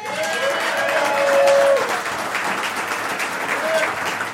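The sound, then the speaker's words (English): Audience applause greets a guest at a live show from Karl's Cabin in Michigan: a dense, steady wash of clapping that holds at an even loudness for the whole stretch, swelling slightly near the middle. “We are now welcoming Jerry Hanlon here, and I want to have your hands together for this guy.”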